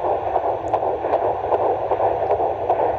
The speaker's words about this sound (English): So Heartbeat is in the 150s, which is normal.